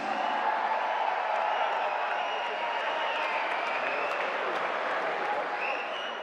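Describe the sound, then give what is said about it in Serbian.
Audience applause at a tavern-style music evening: dense, steady clapping from a large crowd that runs throughout and eases slightly at the very end. “zato ću zamoliti vas da je pozdravimo najvećim aplauzom, jer ona je Milica Jokić!”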